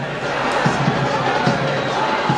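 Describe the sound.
A football crowd shouts and jeers during a match, a dense, steady roar of many voices broken by a few sharper bursts of noise.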